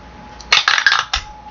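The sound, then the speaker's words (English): Dice, including a twenty-sided die, clatter across a table during a tabletop role-playing game. A quick cluster of sharp, bright clicks and rattles lasts about half a second, followed by one last clack. Soft background hiss runs throughout. “Oh my god, I rolled a 20. So plus 6 is 26 anyway, but I rolled a 20 dice, yay!”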